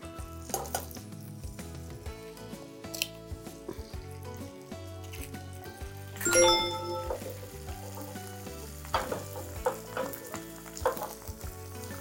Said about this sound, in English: we'll crack the eggs.